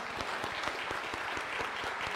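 Church audience at Aldersgate applauding a welcome, with dense, even clapping that continues steadily throughout.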